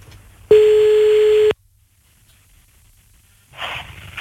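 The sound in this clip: A single ringback tone sounds on an outgoing phone call, a steady, even hum lasting about a second before the line falls quiet. A brief burst of noise follows near the end.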